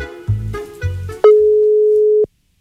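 A telephone line tone sounds while a call is being placed: a few low pulsing sounds come first, then a single steady mid-pitched tone holds for about a second before cutting off abruptly.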